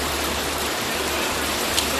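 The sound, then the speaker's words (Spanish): Torrential rain and rushing floodwater from a cold-drop storm in Vinaròs, Castellón, during record-breaking rainfall: a loud, dense, unbroken hiss of pouring water that holds steady throughout. “Así suena la gota fría en Vinarós, en Castellón, que ha batido el récord de mayor cantidad de agua por metro cuadrado en una hora, con 159 litros.”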